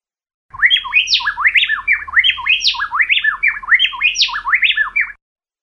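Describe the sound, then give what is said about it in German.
A male and female Fraser's wren from South America sing a duet, trading loud, rapid whistled notes that rise and fall in quick succession. The two voices interlock so tightly that the song sounds like one unbroken phrase lasting a few seconds. “Noch ein Beispiel, hier ein Duett von dem Fraser-Zaunkönig, der in Südamerika verbreitet ist.”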